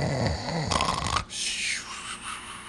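Snoring for sleeping dragons: heavy, rasping, rumbling snores dominate the first half, then drop to a quieter, breathy hiss.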